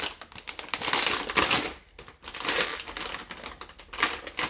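A bag of Japanese Karamucho chips is ripped open, giving loud, dense crinkling and tearing in two long bursts split by a brief lull.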